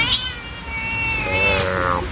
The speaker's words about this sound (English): This is a cat that hasn't been petted for probably ever and now it wants its fair share.